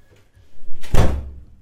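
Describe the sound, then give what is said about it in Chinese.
A door being shut: a brief swinging rustle leads into a single heavy, low thud with a short rattling tail. “这个时候他突然把门关上”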